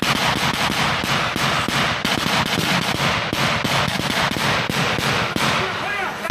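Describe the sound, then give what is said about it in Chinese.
Very dense gunfire in a jungle after rain, heard by a military team on the march: loud, rapid cracks pile into an almost continuous crackling barrage with no clear pauses. “这是一段非常密集的枪声。”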